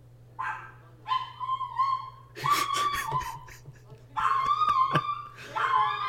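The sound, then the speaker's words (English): A neighbour's dog barking excitedly, a busy run of high, whining yips and sharp barks in several bursts with brief pauses between them, loud and insistent throughout. “Our neighbor's dog is very excited about Spider-Man.”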